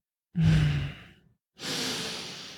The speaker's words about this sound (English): There's that shivering breath again.